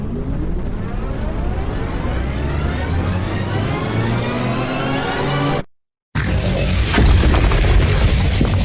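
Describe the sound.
A weapon blast shatters a training dummy. A long whine climbs in pitch as it builds, cuts to a moment of silence, then gives way to a loud, booming burst with crackling noise.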